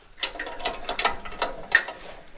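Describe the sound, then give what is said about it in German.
A small key working a hidden lock to open a site, with metallic ratcheting clicks and scrapes in a quiet, irregular sequence and no talking. “These sites are always a little tricky to open because the lock is very hidden.”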